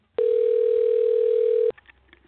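Steady telephone dial tone heard while a caller is being redialed: one continuous, even mid-pitched hum lasting about a second and a half, cutting off abruptly and followed by faint low background noise.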